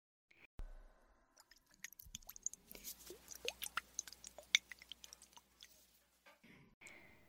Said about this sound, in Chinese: 让我给老公你按摩一下耳朵吧